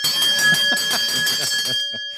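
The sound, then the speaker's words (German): A bell used to call boys in is rung once, giving a bright ringing tone that holds steady for over a second and then fades away. “und wenn die Jungs kommen sollen und sie immer nicht zu finden sind, dann kann ich ja hier an der Glocke mal eben einmal machen.”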